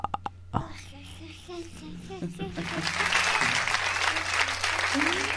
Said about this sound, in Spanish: Ahora aplauden